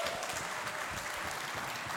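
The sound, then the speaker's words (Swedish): Soft, cautious applause from a church audience after musicians are introduced: light, steady clapping that stays faint and even for about two seconds, with no voices standing out. “Ja, ni kan få en liten försiktig applåd.”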